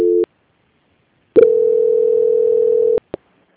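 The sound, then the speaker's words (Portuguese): Telephone line tone during a call transfer: a short tone and a click, a pause, then a long steady single-pitched tone that cuts off, followed by a brief click. “vou transferir o contato para o controle de qualidade, que dará continuidade à sua contratação. Só um momento, por gentileza. Ok. Transferência.”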